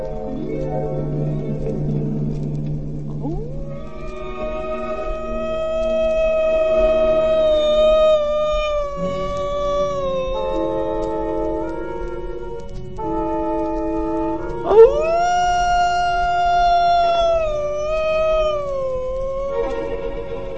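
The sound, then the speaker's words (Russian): A grey wolf howling in a snowy forest: several long, sustained, wavering howls that glide in pitch and overlap one another, preceded by a brief low rough growl-like sound, with no talk. “За большим сугробом показался голодный серый волк.”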